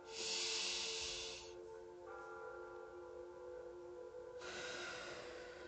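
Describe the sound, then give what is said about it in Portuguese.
A deep breath drawn in, heard as a steady airy hiss lasting over a second, then a quieter stretch and another breathy rush near the end. “Respira fundo”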